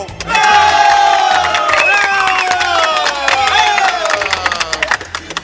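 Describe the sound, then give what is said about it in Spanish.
An audience at a live comedy show applauds and cheers loudly, with shouts rising over dense clapping that stays strong before breaking up near the end. “muchas gracias por esos aplausos”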